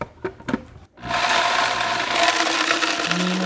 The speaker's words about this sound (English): I'm going to pulverize the almonds and the pine nuts. Maybe just a handful of each.